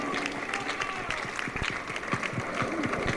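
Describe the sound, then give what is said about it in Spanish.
Crowd applause breaks out for a comrade at a gathering of grassroots communicators in Caracas, Venezuela. Dense, steady clapping runs for about three seconds, with voices audible over it. “Fuerte aplauso para nuestra camarada Victoria Mata.”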